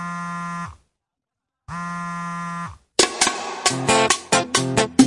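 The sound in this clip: A phone buzzes with an incoming call: two long, harsh buzzing tones separated by a silent gap, then a quicker run of sharp, bright tonal bursts.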